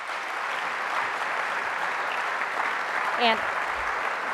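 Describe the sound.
An audience at a Detroit Economic Club event applauds to welcome two speakers, a steady, even wash of clapping that holds throughout.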